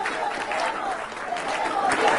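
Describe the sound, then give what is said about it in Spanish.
Applause from a crowd, a dense, steady patter of many hands clapping with a few voices faintly mixed in beneath it. “Mira, estamos viendo la aplaudiza.”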